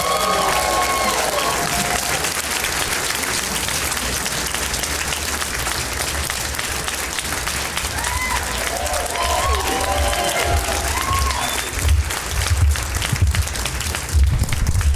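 A comedy club audience applauds to welcome three comedians on stage: sustained, dense clapping with cheering and whoops that keeps going for the whole stretch, with a few louder bursts near the end.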